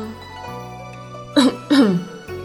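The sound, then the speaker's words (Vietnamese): A dry cough, two short, voiced bursts close together, clearly louder than the low, steady hum beneath them. “Lúc này, Tự Ảnh ho khan một tiếng.”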